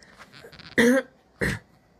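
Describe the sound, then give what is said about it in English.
A person clears their throat in two short rasping bursts, the first longer and stronger than the second, after a moment of faint low-level sound. “Hopefully I won't have this clearing of my throat problem all this time.”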